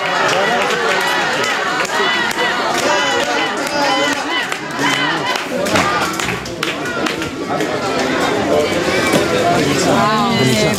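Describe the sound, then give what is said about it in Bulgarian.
Crowd atmosphere at Sofia airport: a dense hubbub of many voices with cheering and scattered claps, loud and sustained from start to finish. “И отново атмосфера от летище София. Да чуем.”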